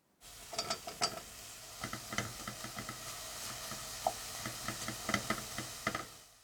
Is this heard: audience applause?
no